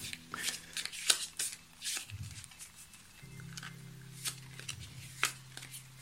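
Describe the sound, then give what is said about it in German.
Playing cards are shuffled in quiet, crisp riffles and soft papery clicks, coming in a few irregular bursts over a faint low hum. “Sie mischt die Karten.”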